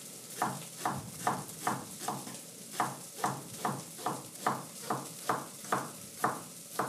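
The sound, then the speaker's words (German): A kitchen knife chops leek, garlic and mushrooms on a cutting board for a sweet potato and leek soup. Many evenly spaced, crisp knocks come at a steady pace, fairly faint. “Jetzt haben wir auch schon ziemlich die Reihenfolge, wie es dann in den Topf wandert. Knoblauch, Champignons, Lauch. Schneiden wir mal ein bisschen weiter.”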